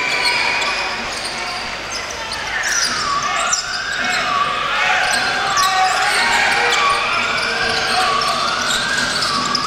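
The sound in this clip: A basketball is dribbled on court during a game as a player sets up a pick and roll. The bounces sit under a dense, steady wash of crowd noise.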